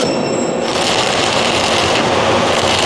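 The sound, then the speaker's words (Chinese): Electric arc welding along a high horizontal seam at high current gives a loud, dense, continuous crackling hiss that holds steady and unbroken from start to end. “他正在焊接一道高横缝，从那个电弧声音听来，他这是电流比较大。”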